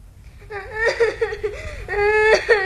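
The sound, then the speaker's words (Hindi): A child whimpers and sobs, a wavering high-pitched cry broken into several uneven bursts. It swells into a louder, more sustained wail near the end. “रोता क्यों है रे मधुआ?”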